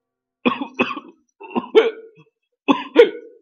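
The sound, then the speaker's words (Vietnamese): An old man's hoarse coughing, voiced by a reader: six loud, rasping coughs in three pairs separated by short pauses, with no other sound. “Nói xong lại ho sù sụ.”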